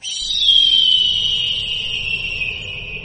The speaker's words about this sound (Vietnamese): một tiếng rít chói tai phẫn nộ vang vọng từ phía chân trời